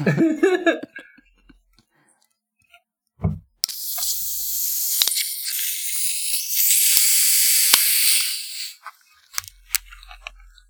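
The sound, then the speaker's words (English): Black cherry soda being cracked open releases a sudden loud hiss of escaping carbonation that fizzes steadily for about five seconds. It comes after brief talk and a dull thump, with a few sharp clicks during the hiss. “So I'm going to crack open this can of quote-unquote twist.”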